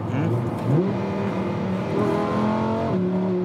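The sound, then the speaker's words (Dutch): Engine roar from a 640-horsepower car with a 5.2-litre V10, a dense, rasping drone whose pitch climbs as the car accelerates and then climbs again near the end. “5,2 liter grote V10.”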